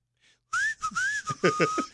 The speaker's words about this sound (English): No, I have to whistle between my two teeth. He has the counterfeit whistle, like this.